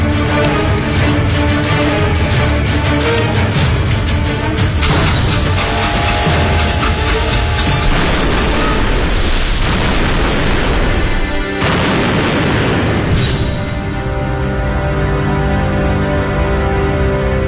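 Explosives packed in a backpack go off at the press of a button beside a railway line by a cornfield, a few heavy booming blasts over a dense, continuous rumbling bed of sound.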